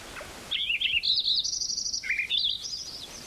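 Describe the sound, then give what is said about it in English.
Song of a Wilson's Warbler: rapid high chattering notes in two quick phrases over faint background hiss. “Wilson's Warbler.”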